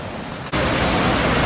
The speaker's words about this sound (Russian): Ну-ка, будет волна. Брызги. Немножко. Брызнуло.